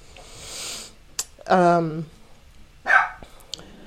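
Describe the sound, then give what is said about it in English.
Dogs bark in a room: a drawn-out, whining bark near the middle and a shorter, sharp bark later, with faint sniffing and light clicks between them. “I'm sorry about the dogs.”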